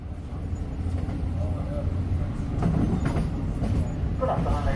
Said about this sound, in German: Ich fahre mit dem Nachtzug nach Amsterdam.